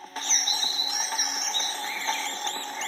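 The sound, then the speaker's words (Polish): Many birds sing in the early morning beside a lake, with dense, overlapping high chirps and trills at a steady, moderate level over a soft background hiss. No one speaks. “Przebudziłem się o 6:00, naprawdę intensywnie słychać ptaki.”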